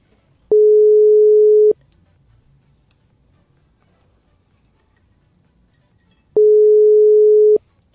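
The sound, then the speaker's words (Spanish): Ringback tone of an outgoing phone call waiting to be answered: two long, steady, mid-pitched buzzing tones, each lasting a little over a second and separated by several seconds of near silence. “ahí está, ya estamos llamando al profe”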